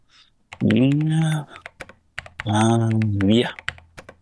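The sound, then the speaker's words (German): Fingers type on a computer keyboard, with sharp scattered keystroke clicks throughout. Two long, loud tonal sounds with rich harmonics run over them, one early and one later. “Und wenn der allmächtige Schöpfer will, dass ich mich bewege, dann wird er gefälligst das Zauberwort eintippen.”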